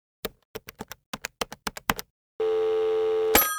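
A call is placed on a telephone: a quick series of sharp key clicks is followed by a steady, unbroken line tone. A sudden bright burst cuts in just before the end.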